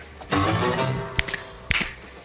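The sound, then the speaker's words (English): Fingers snapping along to a TV theme song. A loud, sustained harmonic sound comes first, then a few sharp, dry clicks, with two snaps standing out clearly. “Yeah, snap your fingers with this one.”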